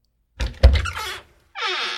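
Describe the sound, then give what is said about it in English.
A creaky studio door opening or closing: a heavy thunk and short rattle, a brief pause, then a drawn-out, high, grinding creak. “we need to really oil the door on the virtual studio here. Can you get on that, please? It was a little creaky.”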